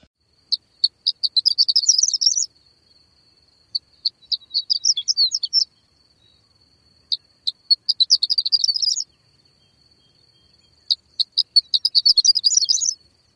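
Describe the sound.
Sparrows singing high, thin songs in four separate bouts: each opens with a few spaced call-like notes and then speeds into a rapid chittering trill, with short silences between bouts.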